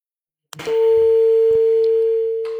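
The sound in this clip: A steady mid-pitched telephone tone sounds after a phone call drops. It starts with a brief click, then holds one unbroken pitch alone until the end.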